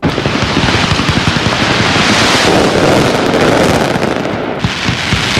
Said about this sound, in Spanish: Suspendida la tradicional mascletà del 9 de octubre, el día de todos los valencianos.